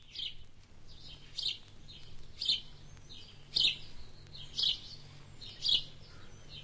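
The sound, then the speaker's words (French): Sparrows chirp in a farmyard, giving short, bright, high-pitched chirps that repeat roughly once a second. They are fairly faint over a low, steady hum. “Une cour de ferme avec ses moineaux.”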